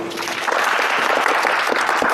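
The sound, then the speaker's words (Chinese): Applause from a class at a demonstration of scanning a stopped tunnel-boring machine cutterhead: many hands clap in a dense, even, steady patter at a strong level throughout. “大家掌声鼓励”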